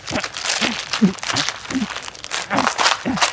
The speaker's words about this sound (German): aber wieso haben Sie jetzt das Buch zerrissen?